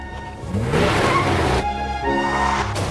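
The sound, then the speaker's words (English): A car's engine roars loudly as it reverses and then strains to accelerate forward out of a tree it has crashed into. The sustained revving comes in two surges, with a rough, noisy edge suggesting spinning tyres. “and speeds backwards across the driveway. The family listen as she tries to accelerate forwards out of the tree she's just driven into.”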